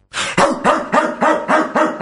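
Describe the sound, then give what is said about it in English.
A person imitates a dog barking, giving a loud, quick, evenly spaced run of many short barks with no other talk. “She said I had to bark.”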